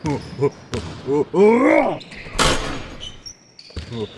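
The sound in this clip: A basketball shot bouncing off the hoop gives a single sharp thud midway, set between voices talking before and after it.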